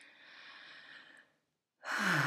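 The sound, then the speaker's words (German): A deep breath: a soft, airy inhale, a short pause, then a louder, breathy exhale like a sigh, with no talk. “atme mal tief durch und spür nach, was sich mit deinem Nervensystem tut mit einem tiefen Atemzug.”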